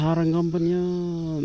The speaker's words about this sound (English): you can hear an interloper amid the din around the village. The low croaking sound of the Asian common toad.